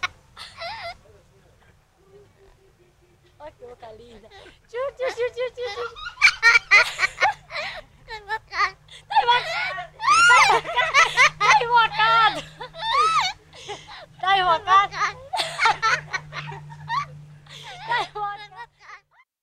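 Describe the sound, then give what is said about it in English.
A parrot and a girl laughing in Bahia, Brazil, swapping many quick bursts of squawky, chirping giggles that start sparse and quiet and then grow busier and louder. “It's the sound of a parrot and a girl laughing,”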